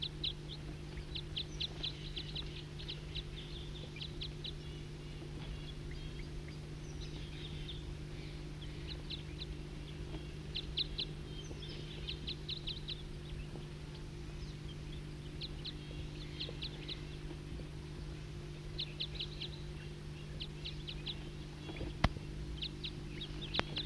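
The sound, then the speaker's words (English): A wild bird calls in repeated short bursts of high, thin chirps throughout. The calls are faint over a constant low hum. “Start recording the wild bird.”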